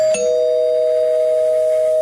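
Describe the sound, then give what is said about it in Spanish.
A doorbell rings once, a clear mid-pitched bell tone that starts sharply and holds steadily for the rest of the moment, loud and alone. “El sábado a las 13 en punto tocaron el timbre.”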